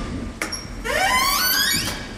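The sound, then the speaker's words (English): A door opens as a father arrives home: a short sharp click, then a long creaking squeal that rises in pitch, faint against a soft background hiss. “And there is your father at the door.”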